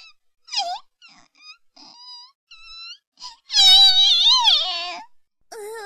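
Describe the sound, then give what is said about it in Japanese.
A lost child bursts into crying: a few short, high whimpers lead into a loud, sustained, wavering wail, followed by another brief cry at the end. “泣き出しちゃった。”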